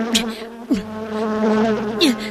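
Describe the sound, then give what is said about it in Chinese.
A bee buzzes as it flies, a continuous droning hum whose pitch wavers and dips briefly as it moves, heard alone throughout. “接着小蜜蜂嗡嗡嗡嗡地飞到楼上去了。”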